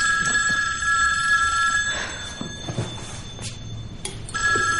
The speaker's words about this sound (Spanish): La filósofa se levanta y coge el teléfono.